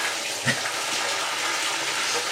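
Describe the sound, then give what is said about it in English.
Hot water tap gushing into a bath in an old house, with the water still running cold: a continuous, steady rush of pouring water, broad and even throughout. “I think I'm going to give myself a little more hot water. I'm now laying off to the side. Oh, this was a disaster. This water is coming in cold.”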